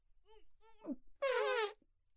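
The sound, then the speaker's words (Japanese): A fart gives a loud, buzzy, tonal blast lasting about half a second, after a few shorter, fainter tonal sounds. “待って待って、これ多分おならだわ、これ。あ、おなら出そう。出してもいい？おなら、おなら出すわよ。”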